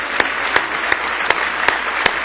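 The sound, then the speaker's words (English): A church audience claps together in praise during an evening service. Six crisp, evenly spaced claps fall in a steady beat over a soft background hum. “Give Him a big hand clap of praise tonight if you love Him.”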